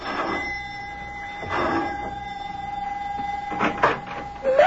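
A doorbell rings at a house: a steady electric ringing tone sustained through the whole clip, with a few brief thuds and rustles near the end.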